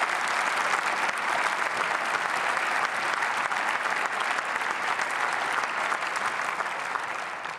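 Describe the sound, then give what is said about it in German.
Applause in the German Bundestag welcoming a guest seated in the gallery: steady, dense clapping from many hands that holds for several seconds before easing off. “Applaus”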